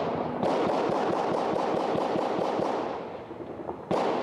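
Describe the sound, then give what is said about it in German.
New Year's fireworks and reported rifle fire in Culiacán, Sinaloa: a fast, even string of sharp cracks keeps up for about three seconds, then thins out, and one more loud bang comes near the end. “Culiacans Neujahrsfeuerwerk, ein tödliches Lichtspiel. Querschläger, Kalaschnikow-Salven und ab und an Granaten.”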